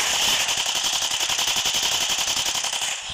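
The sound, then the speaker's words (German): Rapid automatic gunfire from a video game, a dense stream of fast shots that runs unbroken and loud for the whole clip with no voices over it. “Wer schießt denn da so dämlich?”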